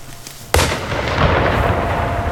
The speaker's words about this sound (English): He lifts his rifle up to his face, getting ready to shoot, and waits.